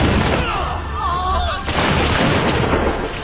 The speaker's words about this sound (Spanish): Los hombres del rey, los ingleses, no tienen ningún miramiento. Preparan sus fusiles Broadbeck y disparan contra los colonos.